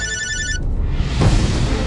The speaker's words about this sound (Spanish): En ese preciso momento, sonó su celular,